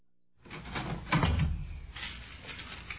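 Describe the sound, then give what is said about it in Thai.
A door being opened to let two travellers into their rented overnight lodging: one fairly quiet, rough scraping and rattling noise lasting about two and a half seconds, with a heavier knock near the middle. “เดี๋ยวฉันจะเปิดประตูให้เข้ามา”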